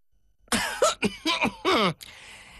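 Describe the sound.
Throat clearing before speaking in a loud voice: five gravelly, voiced rasps, the first longest and strongest, then three short rough bursts and a final longer one.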